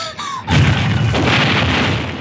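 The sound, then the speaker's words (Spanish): Explosions and gunfire hitting a helicopter: after a brief tonal lead-in, a heavy boom bursts in and rolls on as a loud, sustained roar to the end. “A bordo del terrible Saula, camuflado, los agresores siguen disparando contra el helicóptero y lo hacen con saña”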